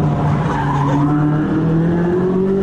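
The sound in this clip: Loud tire squeal from a Corvette skidding through a sharp turn at about 132 mph, a continuous screech with a steady, slowly rising tone over rough road noise.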